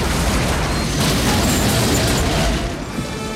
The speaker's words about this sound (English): When an EM gun causes a large explosion outside the warehouse, Lee takes advantage of the distraction to pull one of her arms free